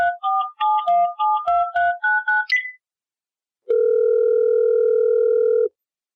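Touch-tone dialing while a caller is rung for a radio call-in: a quick run of paired-pitch keypad beeps, then after a pause a single long, steady telephone tone, with no voices.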